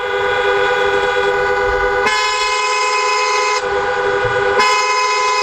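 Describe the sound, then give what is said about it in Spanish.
Car horns honk at the busy Tarajal border crossing between Ceuta and Morocco, where long queues wait. The honks are loud, sustained and overlapping, with several long tones that break and restart a few times and no talk. “este es el sonido de la frontera del Tarajal a esta hora.”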